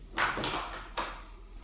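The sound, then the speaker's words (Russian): A door being opened: a faint scraping clack lasting about half a second, then one sharper click about a second later, with quiet background afterwards. “Двери открыли,”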